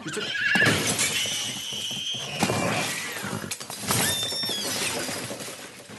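A pony neighs in a holiday scene: a loud, drawn-out whinny with wavering high tones fills the whole stretch, with no talk over it.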